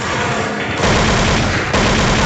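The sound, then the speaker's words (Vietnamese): Dense, rapid gunfire from a gun shooting at an aircraft in a Vietnamese war scene, a loud continuous barrage with no pauses across the whole span. “Súng của ông thì làm sao mà bắn được máy bay? Bắn khói nó à?”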